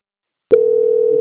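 A steady telephone line tone plays while a call is being transferred. It starts abruptly after about half a second of silence, then holds at one unbroken mid pitch, with no voices.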